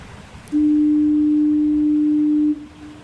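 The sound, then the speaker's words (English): Harbour foghorn at Fort Amherst sounding one long, loud blast of about two seconds. The low tone holds a steady pitch, starts and stops abruptly, and sits over a faint background hiss. “this is a recording of the Fort Amherst foghorn.”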